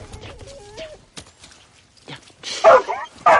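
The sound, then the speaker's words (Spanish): A dog resisting being pushed into mud lets out two loud, harsh bark-like yelps near the end, after a stretch of quieter, scattered scuffling sounds. “Intenta sumergir a la perra, pero esta se resiste.”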